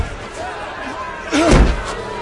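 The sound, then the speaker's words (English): A heavy wooden door slams with a single loud, booming thud partway through, as men press against Lot's door, while a man's narrating voice continues over it. “they pressed hard against the man, Lot, and came near to break down the door.”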